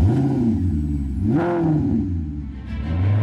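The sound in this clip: Maserati SUV engine revving, a large four-wheel-drive model: a loud, throaty engine note swells up in pitch, dips back, then climbs again toward the end, with some mechanical clatter underneath.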